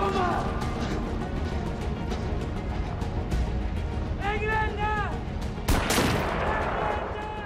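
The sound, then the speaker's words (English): Rapid gunfire from German soldiers in a war film scene, fired during a night chase through a French village. The shots crackle densely throughout, with a sharper loud burst near the end, mixed with voices and other loud battle noise. “German soldiers are firing at him as he weaves through the buildings”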